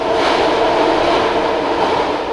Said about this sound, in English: But there's one topic that seems to inspire more puzzlement than anything else in the Bay Area. BART trains.